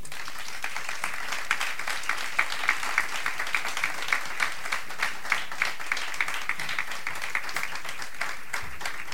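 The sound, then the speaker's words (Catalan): Audience applause for the musicians at a jazz concert, dense and loud clapping that continues steadily throughout without a break. “Minvan, sí que m'agradaria, si no us fa res, demanar-vos un fort aplaudiment individual per aquests supermúsics que tenim avui sobre l'escenari.”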